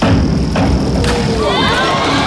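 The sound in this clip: Spectators cheer at the final of the diving World Cup during a singles event. A loud burst of crowd noise with rising shouted voices fills the short clip.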